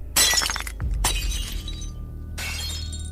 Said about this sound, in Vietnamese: Cái chậu lan lộn ra rơi xuống đất, vỡ tan tành.